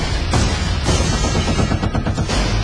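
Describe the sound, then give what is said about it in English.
Gunfire in a western film about fighting a destructive industrialist's private army over a town: dense, loud, overlapping shots crackle almost continuously, with a few sharper bursts standing out. “Man carries a gun, he tends to use it.”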